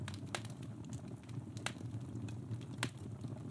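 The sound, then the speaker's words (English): A freshly lit fire crackles at Christmas, giving a few faint, sharp pops over a low, steady rumble. “I'll light the fire. Here we go.”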